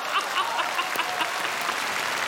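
Audience applause, dense and continuous clapping at a moderate level with a few sharper claps standing out from the wash.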